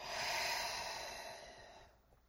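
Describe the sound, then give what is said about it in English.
A long, breathy exhale during a guided breathing exercise, a steady rush of air that fades away over about two seconds and ends in quiet. “Exhale out.”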